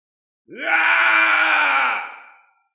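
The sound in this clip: A roaring scream of red creatures: one long, harmonic wail that swells in abruptly, holds loud and steady, then trails away, heard alone.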